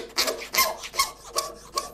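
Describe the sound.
Rasping file strokes even out cooled pieces of cow horn at a smithy for traditional Taramundi knife handles: five rhythmic, gritty scrapes, each swelling and fading at a steady pace.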